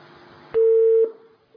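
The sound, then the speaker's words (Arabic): Telephone busy tone after a caller's line is cut off: a single loud, steady electronic beep lasting about half a second, starting abruptly after a short click over faint hiss and trailing off into near silence. “قطع اتصال.”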